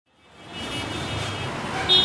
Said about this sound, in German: Im Norden von Delhi eine stark befahrene Straße, der übliche Verkehrslärm der indischen Hauptstadt.